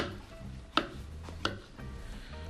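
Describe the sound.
Mushroom stems are chopped with a knife on a board: a few soft cuts, with two sharp, louder strikes standing out, all quiet and unhurried with no voices.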